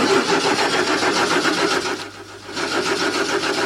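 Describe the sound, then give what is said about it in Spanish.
A car engine cranks over with a weak battery, a loud, steady pulsing churn that dips briefly partway through and then resumes at full strength. “Y ese es el problema, que el auto cuando... La batería floja. Pero arranca.”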